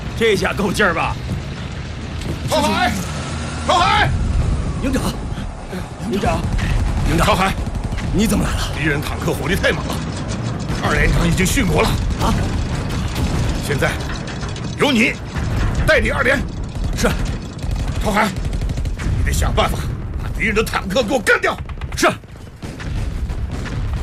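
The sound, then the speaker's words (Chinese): An enemy Japanese army tank rolls out during a wartime battle, making continuous loud mechanical clanking, ratcheting and creaking throughout, mixed with voices. “那是什么东西？哎，我听说过，就是铁壳子，还躲在里面，还会开抛射机呢。 对，啊，听起来蛮厉害的，但它打起来就是纸糊的。 你看，坦克出来了。”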